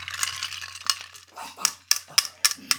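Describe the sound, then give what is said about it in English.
A spoon stirs a cocktail in a glass, with soft swirling followed by several sharp metallic clinks that come more often and louder toward the end. “he's going to properly stir my cocktail right now. Oh, hello.”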